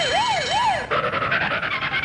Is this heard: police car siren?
yes